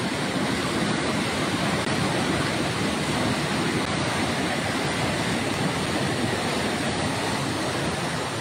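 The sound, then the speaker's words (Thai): Muddy floodwater rushes past after heavy overnight rain at Ban Nam Duk in Lom Sak, overflowing its edge in a loud, unbroken roar with no voices. “นี่คือบ้านน้ำดุกนะฮะในพื้นที่หล่มสักคุณผู้ชมคือเจอน้ำมาตั้งแต่ช่วงเช้ามืดเพราะว่าฝนตกหนักแช่ตลอดทั้งคืนครับและดูกระแสน้ำ”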